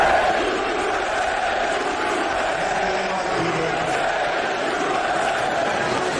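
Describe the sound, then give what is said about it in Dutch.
Crowd at a sports match with Trump present chanting "USA" in unison, a dense, continuous roar of massed voices with cheering, steady in loudness throughout. “Ja, je hoort hier USA, USA. En dan zie je in beeld op televisie Trump staan met de vuisten in de lucht.”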